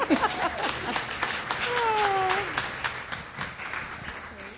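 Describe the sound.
Audience applause welcomes a lecture speaker to the stage: dense, steady clapping for several seconds, with a voice briefly audible over the clapping.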